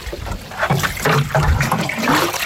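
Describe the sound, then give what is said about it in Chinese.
Water from a hose pours onto newly planted pine seedlings on a hillside, a steady rushing splash and trickle that swells in uneven surges. “开始干活了，从南往北浇，每棵苗一桶水，别落苗。”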